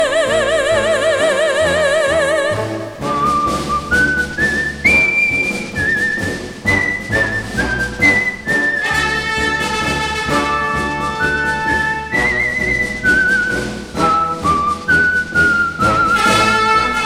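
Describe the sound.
A person whistles a bright, lilting song melody over instrumental accompaniment, with clear sustained notes that step up and down. An opening passage of wavering vibrato tones leads into the whistled tune.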